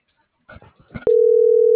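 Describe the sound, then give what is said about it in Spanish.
A telephone line tone sounds while a number is being dialed. After a moment of brief, muffled talk, a steady mid-pitched tone starts abruptly and holds unbroken to the end. “Sí, es que estoy marcando la T-53 de Rodolfo”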